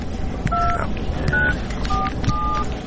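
Touch-tone dialing of a telephone number: four short, clear keypad beeps in an uneven rhythm over steady background noise, with no talk.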